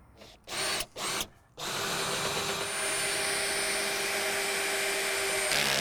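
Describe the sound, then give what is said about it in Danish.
Whirring of an electric screwdriver lowering a caravan support leg: two short bursts, then a long, steady, loud run with an even motor whine that holds to the end. “Altså, når du bruger øh, en skruemaskine, så kan den jo virkelig tage fat. Og i den forbindelse, så kan man altså, hvis man overbelaster støttebenet, risikere, at øh, spindelbøsningen, som sidder i selve øh, støttebenet her, at den flækker.”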